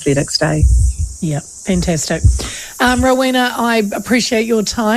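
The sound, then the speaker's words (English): Cicadas chirping on a hot summer day, a steady high-pitched hiss that runs unbroken beneath people talking. “Wherever you are, your cicadas are going crazy.”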